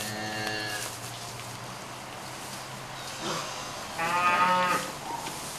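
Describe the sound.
A mother cow moos for her calf, two long, low calls with a rich, droning tone, the first at the start and a louder one near the end, separated by a quieter stretch.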